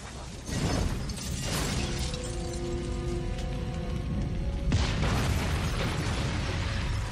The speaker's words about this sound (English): Limping away from an exploding van full of dead guy.